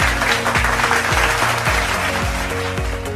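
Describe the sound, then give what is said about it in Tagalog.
Applause from students in a class, praised and prompted by their teacher, a steady dense clapping that holds at an even loudness throughout, layered over background music with a repeating low beat. “Palakpakan ang inyong sarili.”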